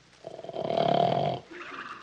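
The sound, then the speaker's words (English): A sleeping dog snores: one long, rasping, throaty snore swells and holds for about a second, then drops to a quieter, breathy tail. “Oh, darn it. The dog's asleep.”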